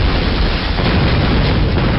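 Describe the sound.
A torpedo explodes against an oil platform in a video game, heard as a loud, dense rumbling roar that holds steady and unbroken across the whole stretch, with no talking.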